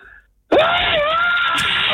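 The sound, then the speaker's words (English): A person screams for a prize, one long, loud, sustained cry with a wavering pitch that starts abruptly after a brief quiet moment and holds steady to the end. “Proceeds to give us one of the best screams we've had so far.”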